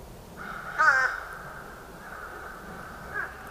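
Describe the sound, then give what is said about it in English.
Fish crow calling alongside another crow species, with one loud nasal caw followed by fainter, drawn-out calls and a short later caw over a soft, steady background. “During the warm months, we have another species called fish crow. It sounds like this. See if you can pick out the two species in this recording.”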